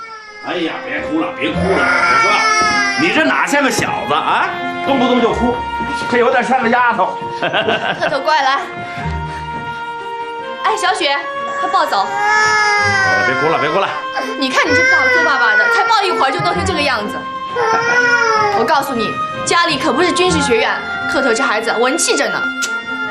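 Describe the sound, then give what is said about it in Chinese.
A baby boy cries loudly in long, high, wavering wails, repeated in bursts with brief breaks throughout. “哎呀，别哭了，别哭了，我说，你这哪像个小子啊？动不动就哭”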